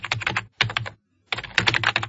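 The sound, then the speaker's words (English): Quick keystrokes clatter on a computer keyboard as homework is typed into a document, coming in three rapid bursts of clicking with short pauses between them. “Next, you write your homework in the new document. Use the keyboard.”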